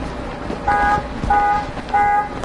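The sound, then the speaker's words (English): A toy truck horn honks three times in an even rhythm. Each note is a short, steady, high electronic toot, heard over a constant background noise. “Honk, honk, honk.”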